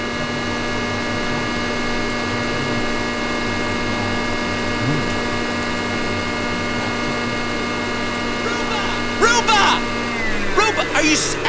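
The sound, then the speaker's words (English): A vacuum cleaner runs with a steady, droning motor hum that holds an even pitch throughout, and voices talk over it near the end. “Hey, cut it out. Are you serious, man? Is this really the time that you need to be vacuuming?”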